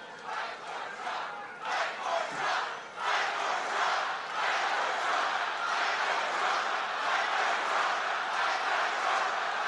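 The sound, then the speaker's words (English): A large crowd cheers and shouts at a Trump speech, with scattered bursts of voices at first that swell after a few seconds into a loud, sustained roar. “Trump began speaking to cheers of,”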